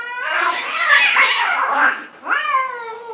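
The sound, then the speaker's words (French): A cat being chased by a dog screeches in a long, loud, wavering yowl, breaks off briefly, then lets out a second shorter cry that rises and falls in pitch. “Vous vous approchez et finalement, vous vous rendez compte que c'est juste un chat poursuivi par un chien.”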